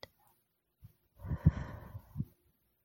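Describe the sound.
A single slow exhale during a guided breathing exercise comes through as a soft, breathy rush lasting about a second, with a faint tap just before it.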